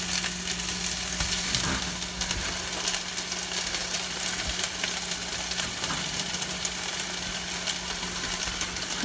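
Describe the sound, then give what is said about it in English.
Four tablespoons of butter melt in a pan with a soft, steady sizzle, faint and unbroken, with no talking. “we're going to put in our butter to melt. 4 tablespoons of butter.”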